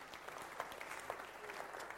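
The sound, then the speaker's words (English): Faint, steady clapping from an audience applauding the winners, an even patter of many hands with no single voice standing out. “Right, give them a round of applause, the winners.”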